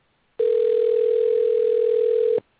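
A steady telephone call tone, heard when nobody is dialing in: one loud, unbroken beep at an even pitch, held for about two seconds and sounding alone before it stops abruptly.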